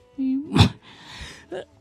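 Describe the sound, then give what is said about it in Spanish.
Coughing and throat clearing from a scratchy throat: a short voiced hum leads into a few rough, breathy bursts and a raspy stretch, ending with another quick throaty catch. “de repente que tengo como una carraspera.”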